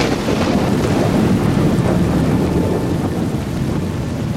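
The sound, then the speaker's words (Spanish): Thunderstorm with heavy rain: a dense, steady roar of rainfall and wind with low rumbling underneath, holding loud and even throughout, no voices. “Y con esta tormenta que viene.”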